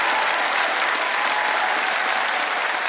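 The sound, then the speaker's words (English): An audience applauds to welcome a singer onto the stage. The clapping is thick and even, holding at a constant level from start to finish. “Will you put your hands together and give a wonderful welcome to the one and only, the lovely Miss Mary Duff.”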